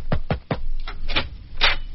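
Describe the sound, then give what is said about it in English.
Knocking on a door: three quick, firm raps in a row, followed by a few softer, duller thumps, all with a muffled, narrow-band tone. “Somebody knocked. Yes, I knocked”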